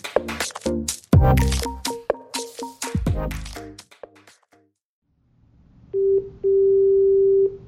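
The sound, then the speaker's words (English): An electronic telephone tone follows a run of loud, pitched clattering hits and a silent pause. It begins as a short beep, then a longer steady buzzing tone, with no voices. “what is that sound? That's the phone ringing. Is anyone going to answer it?”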